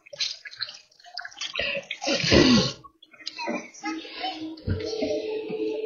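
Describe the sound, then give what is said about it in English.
Tap water runs and splashes as greasy fingers are rinsed in a home kitchen after greasing a pan. The flow comes in irregular, moderately loud gushes that swell and drop back several times. “And then I'm going to rinse off my fingers because they're kind of greasy.”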